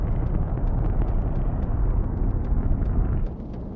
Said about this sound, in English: Ignition. We have liftoff of the Delta II rocket carrying the Mars Polar Lander, NASA's first visit to the Red Planet's southern pole.